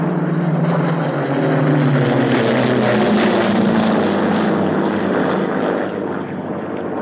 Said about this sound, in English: a Mitchell plane flies overhead